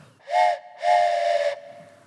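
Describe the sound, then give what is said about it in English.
A toy train whistle blown by mouth gives two breathy, steady-pitched blasts, a short one followed by a longer one, with a soft airy hiss. “I've got a train whistle.”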